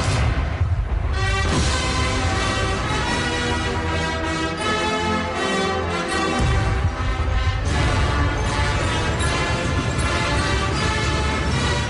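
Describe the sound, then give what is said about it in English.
The Russian national anthem rings out at the Victory Day parade in Moscow, a loud, sustained full-band performance with rich harmonic chords that fills the entire clip without pause. “That's the sound of the Russian national anthem.”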